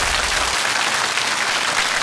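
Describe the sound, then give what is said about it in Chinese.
Applause from an audience at a school lecture event welcomes a teacher to the podium. It is a dense, steady clatter of clapping that holds at an even level throughout. “掌声有请”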